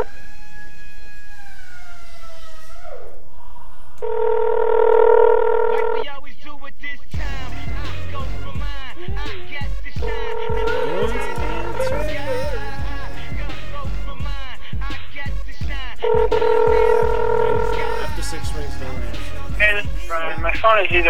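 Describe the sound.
A house phone call produces electronic tones in three steady bursts of about two seconds each, spaced several seconds apart. People talk between and over the tones.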